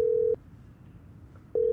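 Ringback tone of a telephone call on the line: two bursts of a steady, mid-pitched tone separated by a pause of just over a second. The first burst is cut off at the start and the second at the end.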